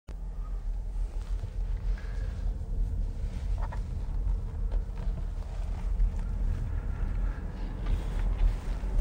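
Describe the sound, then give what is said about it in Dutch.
Quiet electric Volkswagen ID4 car driving: a steady low road rumble with a soft wind hiss on top, evenly sustained and without speech. “Zo, lekker stil. Ja, dat is wel het voordeel van elektrisch rijden. Ja, dat is... Het is ook gewoon rustgevend. Vooral in een auto zoals de Volkswagen ID4.”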